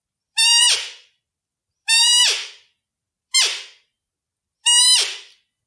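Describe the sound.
A person imitates a roe deer doe's call with four short, squeaky, nasal calls. Each call has a breathy, fading tail. The calls are evenly spaced, with no talking between them.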